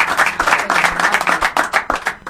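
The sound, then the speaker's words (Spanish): Quick, rhythmic hand clapping from a few people, sharp bright claps in a lively pattern, with a soft low thump that recurs about every half second beneath them. “A ver, aplauso para Rocky.”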